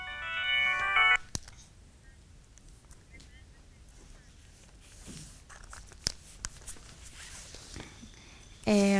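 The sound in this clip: A mobile phone ringtone plays a bright, tonal electronic melody for about a second. Quiet background follows, and then another short burst of the ringtone cuts in at the very end.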